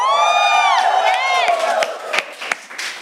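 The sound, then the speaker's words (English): A live audience cheers with a whooping voice, then bursts of clapping and scattered sharp claps follow as the cheer fades. “At the same time, we are also having a live audience for this episode. And make some noise again.”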